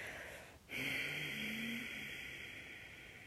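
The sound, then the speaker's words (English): A deep exhale through the nose comes after a brief pause: a single long, steady breathy hiss that lasts nearly three seconds and fades slightly toward the end. “So let's just take a moment to exhale all our air out. You can exhale through the nose.”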